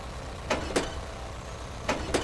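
Sharp clicks of a car's gear lever being shifted into reverse at the edge of a pool, four faint clicks in two quick pairs over a low, steady rumble.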